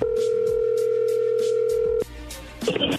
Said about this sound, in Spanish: Sí, dele, márquele, a ver si le contesta.